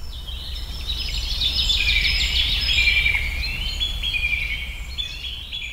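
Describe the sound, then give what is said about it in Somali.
Various birds sing together in high chirps, twitters and quick trills that overlap almost continuously, set against a low steady background hum. “iyadoona shimbiro kala nooca maqalkooda kugu soo dhacaya kuwaas oo ku tusaya barwaaqada halkan ka jirta”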